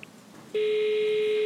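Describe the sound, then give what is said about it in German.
Telephone ringing tone while placing a call, a short quiet hiss then a single steady electronic tone that starts abruptly and holds at a constant pitch, loud and alone. “habe ich in Groß-Paschleben noch einmal angerufen.”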